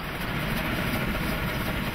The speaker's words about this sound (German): Was für eine Eleganz haben die wirbelnden Treibräder der 01.